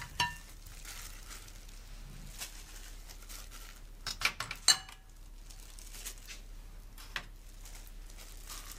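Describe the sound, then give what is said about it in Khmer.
Soft clinks and light patter as bamboo shoots, soaked dried mushrooms and tofu are mixed together, a few small knocks clustered in the middle over a faint steady hiss. “ចាមុនដំបូងពេលមុននឹងខ្ញុំខគឺខ្ញុំត្រូវលាយទំពាំងហើយនឹងផ្សិតក្រៀមតៅហ៊ូលាយគ្នាជាមុនសិនចាយើងដាក់ទំពាំងចូល”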